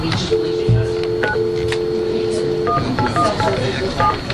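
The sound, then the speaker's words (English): Telephone keypad tones as a number is dialed: a sustained two-tone note followed by a quick run of short beeps, with people talking over them. “I can just dial. No, just call. Let's call.”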